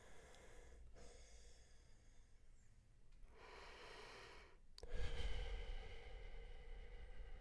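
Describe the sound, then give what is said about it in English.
Labored breathing of a dying artist, a few slow, heavy, rasping breaths separated by pauses, the last one louder and longer, with no voices. “You are listening to the labored breaths of an artist who is dying.”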